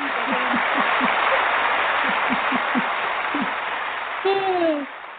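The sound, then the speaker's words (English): A recorded round of applause: dense, hissing clapping runs steadily for about four seconds, then thins out as a short whistle-like tone slides downward near the end. “I gave myself a round of applause, but you know, I'd have to say that I played that for a friend of mine and he said, "What is it, raining in Scottsdale?" And I said, "No, that's my applause. That's for my applause."”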